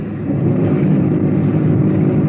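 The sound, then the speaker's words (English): A police car rolls in second gear over slick streets, its engine giving a steady, loud low rumble that holds even throughout with no voices. “Rolling a lot in second gear.”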